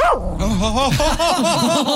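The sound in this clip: A dog vocalizes continuously in loud, wavering whines and yelping barks whose pitch rises and falls in quick swoops, with no pause across the short stretch.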